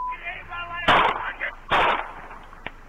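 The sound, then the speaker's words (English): Two gunshots fired by a police officer: loud, sharp cracks about a second apart, each with a short ringing tail, with a voice talking before and between them. “Shot him twice. He's on the ground, reaching for his waistband.”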